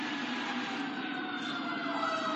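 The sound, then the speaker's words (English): A fire truck siren wails in a steady, loud, continuous tone with sustained high pitches and a low rumble beneath, heard alone with no talk. “give the fire truck a moment.”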